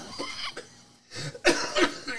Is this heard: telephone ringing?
no